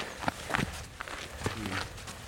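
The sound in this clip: Footsteps climb a mountain path in Assynt, northern Scotland, a few uneven crunching treads at a steady walking pace over faint wind-like noise.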